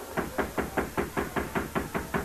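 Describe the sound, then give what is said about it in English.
Knocking on a jail door: about eleven evenly spaced knocks at a quick, steady rhythm, each a short, solid thud of equal loudness, with no voices. “knocked. A peephole opened. Then the door was unlocked and opened.”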